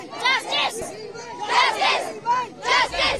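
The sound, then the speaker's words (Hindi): A protest crowd chants slogans demanding justice on a school campus, many voices shouting together in loud, rhythmic, repeated bursts. “प्रदर्शन के दौरान school परिसर we want justice के नारों से गूंज उठा।”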